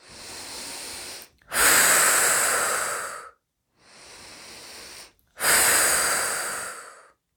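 Slow breathing during guided relaxation, in two full cycles. Each is a softer inhale followed by a louder, longer airy exhale of about two seconds, with brief silences in between.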